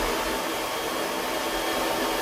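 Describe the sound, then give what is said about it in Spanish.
A hair dryer blows with a steady, even whooshing roar that holds unchanged from start to end, with no voices over it. “correcto, es un secador. Ah, claro, un secador”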